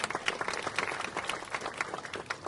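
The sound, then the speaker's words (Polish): Applause from a ceremony audience greeting an official called to the stage: dense, rapid clapping from many hands, fairly faint and steady, with a few slightly louder bursts. “Wielkie brawa!”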